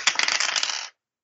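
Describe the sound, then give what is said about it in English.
A handful of dice rattle and clatter in a rapid burst of bright, sharp clicks. The burst lasts just under a second, then stops dead into silence. “So I guess give me an idea roll. Okay. I have dice.”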